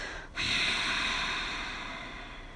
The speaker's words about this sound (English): Let's breathe it together. Exhale first.